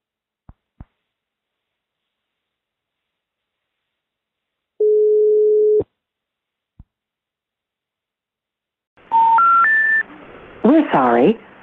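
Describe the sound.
Touch-tone keypad dialing on a telephone to call someone back: a short run of beeps stepping upward in pitch, following a few faint clicks and one steady tone, with more tonal sounds right after the dialing.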